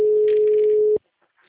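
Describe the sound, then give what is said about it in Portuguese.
A single steady, mid-pitched ringback tone sounds as a phone call is placed, lasting about a second before cutting off to silence. “Vou ligar.”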